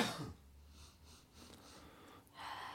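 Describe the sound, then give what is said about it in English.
Deep sniffing inhales over a glass of Goose Island Bourbon County Brand Stout, a bourbon-barrel-aged stout. A few short, faint nasal draws come in quick succession, then a longer sniff near the end. “snorting it over here. Deep inhales.”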